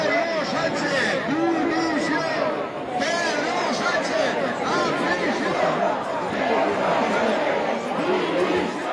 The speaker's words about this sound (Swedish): Och spanjorerna, ja, de är inte helt nöjda. Så här lät det på Madrids gator häromdagen.